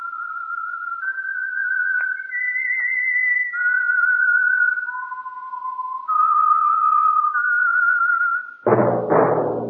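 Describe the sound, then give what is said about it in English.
A theme tune whistled by one person, a slow melody of long, clear held notes stepping up and down in pitch, loud and alone, until a fuller, rougher tone breaks in near the end. “But tonight, as usual, the Whistler theme by the real Whistler will sound like this.”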